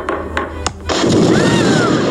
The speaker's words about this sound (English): It explodes. She's safe. Thank the God.